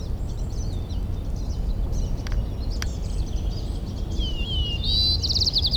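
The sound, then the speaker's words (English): White-crowned sparrow song: thin, high whistled and trilled phrases, fairly faint over a steady low rumble of background noise, with a couple of brief clicks. “White-crowned Sparrow A continued.”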